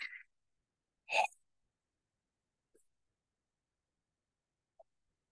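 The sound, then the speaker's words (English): Short, sharp breaths in and out through the mouth during a breathing exercise: two quick audible puffs, then a couple of tiny faint sounds, all quiet with no voices. “by using breath holds, breath squeezes, and a breath that's in and out through the mouth. Looks and sounds like this.”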